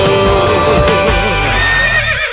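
A horse neighs in one loud, long whinny, its pitch quavering and trembling throughout before it trails off at the end.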